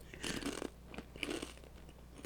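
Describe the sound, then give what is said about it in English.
Doritos Flamin' Hot Nacho chips being crunched and chewed, with a few bursts of crisp, crackling bites and quieter chewing in between. No voices are heard. “Y'all, I got the Doritos Flamin' Hot Nacho. Oh, let me taste these.”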